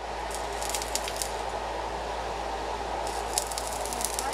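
Welding at a technical training institute in Takoradi, where students work under an instructor. A steady crackling hiss runs over a low constant hum, with occasional small pops.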